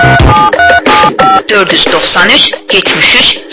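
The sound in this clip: A few short touch-tone dialing beeps on a Baku bureau's telephone call-in line sound at the start, then loud talk follows.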